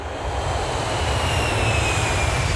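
Steady, continuous roar of an airplane flying near Perth Airport, a broad, even rumble with a faint high whine and no voices.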